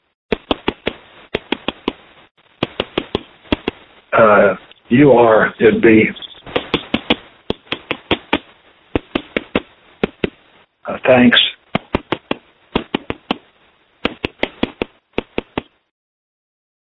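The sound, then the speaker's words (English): Knocks of prisoners' tap code rapped on a wall, in quick groups of sharp taps separated by short pauses, heard on a low-quality phone recording and broken up by several stretches of talk. “So what you just heard was the tap code.”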